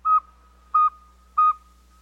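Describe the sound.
Owl calling: a steady series of short, clear whistled hoots at mid pitch, evenly spaced about two-thirds of a second apart, each note the same length and loudness, heard alone with no voices.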